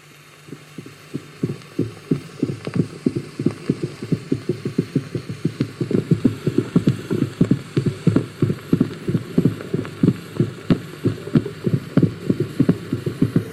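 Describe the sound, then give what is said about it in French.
Camel footsteps from an old 78 rpm recording: many dull, muffled thuds in a steady, even rhythm over a low hum. The steps grow somewhat louder after the first few seconds. “C'est un enregistrement 78 tours et ça n'est pas tout à fait évident de reconnaître, si on n'avait pas cette étiquette, le pas du chameau.”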